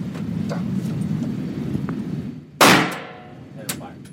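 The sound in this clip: A handgun's trigger is pulled and the gun fails to fire, giving one sharp, loud metallic click that rings briefly over a steady low background hum. A faint tap follows a moment later.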